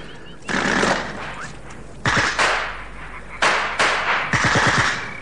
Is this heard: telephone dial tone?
no